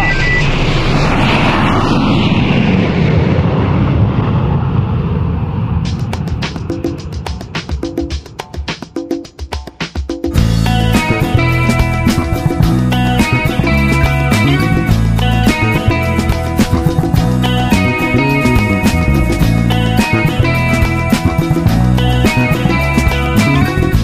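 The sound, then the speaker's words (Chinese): An aircraft taking off after a countdown makes a loud, broad rumbling roar for about ten seconds, with a high whine sweeping downward early on. Music then abruptly takes over and continues to the end. “七、六、五、四、三、二、一，起飞啦！”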